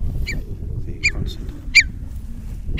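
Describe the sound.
A curlew gives alarm calls from a newly cut silage field in Ireland: a few short, sharp, downward-slurred calls stand out over a low rumbling background.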